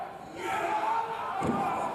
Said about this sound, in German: So, jetzt macht er die Hand los und holt ihn rüber. Kannst du Kopf verlassen, wie letztens. Jetzt hauen wir ihn hin!